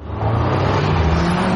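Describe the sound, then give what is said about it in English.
An Audi car engine runs as a loud, steady low rumble. The drone holds at an even level for the whole moment, with no clear rise in revs. “Hear that? That's the sound of Audi Precision.”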